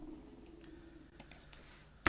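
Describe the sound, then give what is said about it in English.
Clicks on a computer while selecting a date and month: a few faint, quick clicks, then one sharper, louder click at the end, with no talk. “just click on the date. And you're going to click on the month.”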